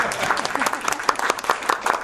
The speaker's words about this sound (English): if we could get a round of applause and for our new co-chair